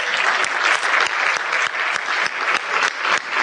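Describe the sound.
An audience applauds at a live talk by a company co-founder, a dense, steady wash of clapping that stays loud and even from start to finish.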